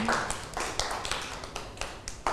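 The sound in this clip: Children clap their hands for a classmate in a school classroom, a dense patter of many small, quick claps with a few sharper taps standing out, moderately loud and without talk.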